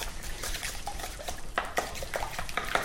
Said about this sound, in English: And then I'm ready to give it a really, really good stir.